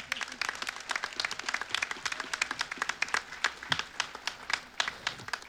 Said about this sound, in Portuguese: Merece uma salva de palmas.